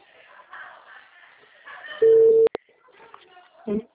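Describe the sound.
A telephone busy signal follows a dropped call: one short, steady mid-pitched tone lasting about half a second, then a sharp click, set between stretches of talk.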